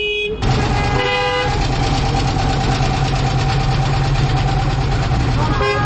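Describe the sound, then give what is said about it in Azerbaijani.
Car and truck engines rumble loudly and steadily as traffic in both directions squeezes through a narrow lane beside roadworks where asphalt has been dug up to lay a water pipe, with a short horn toot early on. “Bu da nəqliyyatın gedişini iflic vəziyyətinə salıb, belə ki, hər iki tərəfə gedən maşınlar balaca dar bir yoldan keçir.”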